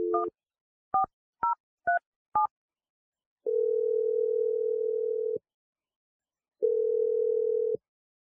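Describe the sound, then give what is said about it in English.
Telephone keypad tones: five short beeps of a number being dialed, then two long, steady tones, the second after a brief gap. “I'm dialing the number right now.”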